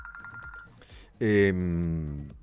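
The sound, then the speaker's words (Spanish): Mobile phone ringing. A bright, sustained tonal ring bursts in abruptly after about a second of quieter sound and holds steadily to the end. “Disculpame porque me sonó justo el celular y me distraje.”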